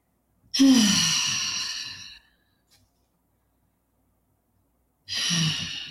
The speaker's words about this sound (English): So I invite those of you listening to just take some cleansing breaths in through the nose and out through the mouth.